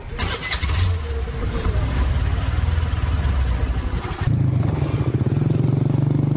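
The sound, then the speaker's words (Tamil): A vehicle engine starts with a loud, noisy burst of start-up roar lasting a few seconds, then drops abruptly into a steady, low, pulsing idle rumble. “வண்டியை start பண்ணட்டுமா?”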